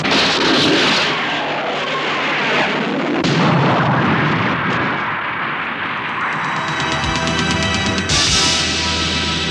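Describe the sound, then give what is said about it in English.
Torpedoes firing in a science-fiction space battle, heard as a sustained, loud roaring blast that shifts and surges, then gives way to a harsh buzzing electronic hum in the last seconds. “position Dyak's torpedoes. Right. Firing!”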